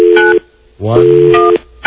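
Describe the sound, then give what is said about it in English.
Telephone number being dialed with DTMF keypad tones: two short bursts of steady dual-pitch beeps, one at the start and one near the end, with a voice speaking between them. “All right, we're going to call Robin now.”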